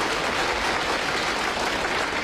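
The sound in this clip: Applause from an audience welcomes a contestant at a stage competition, dense and steady clapping filling the brief moment without pause.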